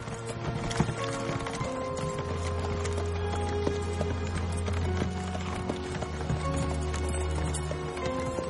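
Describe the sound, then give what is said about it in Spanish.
Hooves of a horse-drawn carriage clip-clop steadily along a dirt road through woods, a continuous rhythmic patter under a sustained low musical tone. “El carruaje circula por un camino de tierra entre bosques.”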